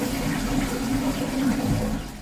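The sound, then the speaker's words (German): A toilet flush: a steady rush of water at an even, fairly loud level for about two seconds, easing off slightly at the very end. “Ja, die Klospülung.”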